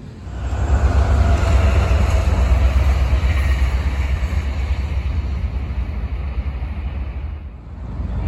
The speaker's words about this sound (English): this is the north end of Roper Yard, and there's a locomotive headed our way.